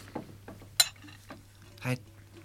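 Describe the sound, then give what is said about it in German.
A spoon stirs cocoa powder into a cup of milk, giving a few light, sharp clinks against the cup between quiet pauses. “Jetzt tun wir einen Kakao in die Milch rein, gell? Eine damit, so. Ein Löffelchen umrühren.”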